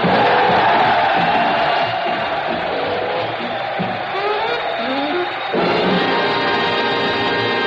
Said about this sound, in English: the cheers and applause of some of America's most honored sons, the veterans of Lovell General Hospital, Fort Devens, Massachusetts